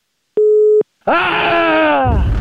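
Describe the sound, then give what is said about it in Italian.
A telephone busy-signal beep sounds after the other party hangs up. One short, steady, mid-pitched tone plays, then a loud, drawn-out groaning voice follows and sinks slightly in pitch toward the end. “ha buttato giù il telefono”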